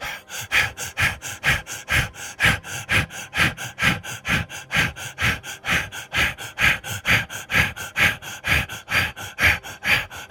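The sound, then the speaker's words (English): Forceful rhythmic breaths pushed out during a breathing exercise, many quick, evenly spaced puffs of air through the nose in a steady pulsing pattern, with no talk. “Hold. Release the breath. Again, resume from the root.”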